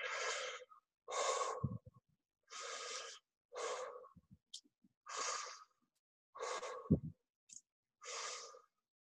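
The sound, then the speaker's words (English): A breathwork cycle of sharp, forceful breaths, each a short breathy burst separated by brief silent gaps at an even, steady pace. “So I'll show you this cycle of five to get an idea of. Don't stick to my pace. This, you find your own pace, but this is the relative pace of the five breaths.”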